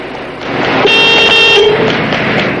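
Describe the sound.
Car horn blaring in street traffic as a man runs between the cars: one sustained, bright honk of about a second over a steady traffic rumble.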